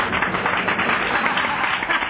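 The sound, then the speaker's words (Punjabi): Audience clapping at a Punjabi stage show after a cash prize is announced: a brisk, dense patter of many hands, fairly loud and steady for a couple of seconds. “ਇਹਨਾਂ ਸੱਜਣ ਨੇ ਇਹਨਾਂ ਇਨਾਮ ਤੇ ਤਾੜੀ ਕਿਸੇ ਨੇ ਨੀ ਮਾਰੀ। ਮਿਹਰਬਾਨੀ ਕਰਕੇ ਤਾੜੀ ਮਾਰ ਦਿਓ।”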